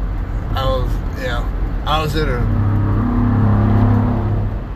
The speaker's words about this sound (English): that noise was somebody jamming on the gas and had to pass me to get a whole car length